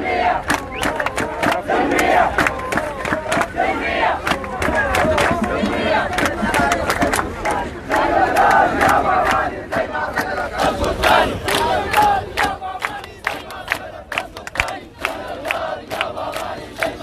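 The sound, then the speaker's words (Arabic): Protesters at a demonstration in Blue Nile, Sudan chant slogans together, a loud, dense crowd roar of massed voices that rises and swells in waves, with sharp shouts and claps cutting through throughout. “حيث رفعت المتظاهرين شعارات وهتافات سقطت أول وسقطت ثاني. وأضاف المتظاهرين في النيل الأزرق في هتافاتهم:”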